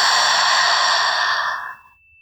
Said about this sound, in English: Deeply inhale through the nose. Exhale through the mouth.